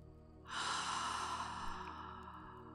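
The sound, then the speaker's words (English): A person breathing slowly during a guided relaxation exercise: one long, airy breath swells in at about half a second and holds steady before gently tapering off. “Breathe in and out.”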